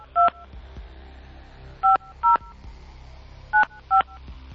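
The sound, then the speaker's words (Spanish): Touch-tone beeps of a telephone number being dialed to call someone: five short, clear electronic tones in an uneven rhythm, two pairs close together after a single opening beep, over a low steady hum. “Jackie, vamos a ver si nos contesta Jackie.”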